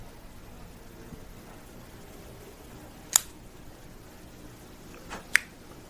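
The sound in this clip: Cutting a Joya de Nicaragua Antaño 1970 cigar: two sharp, crisp snips separated by a couple of seconds, with a faint softer click just before the second, over quiet background hiss.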